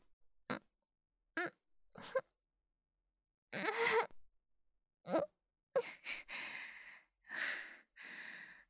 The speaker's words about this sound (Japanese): 泣くからちょっと待ってて。